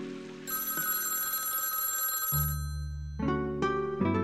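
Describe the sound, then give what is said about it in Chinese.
A telephone rings with a bright, continuous electronic tone that shifts in pitch partway through, then breaks into quicker repeating rings. “凌晨的时候，电话响”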